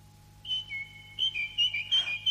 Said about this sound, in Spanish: ¡El ruiseñor del campo canta desde la ventana! Ruiseñor, mi ruiseñor, has regresado.